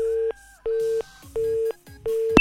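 Busy signal on a telephone call that will not connect: four evenly spaced, steady mid-pitched tone bursts, each about a third of a second long, then a short sharp click.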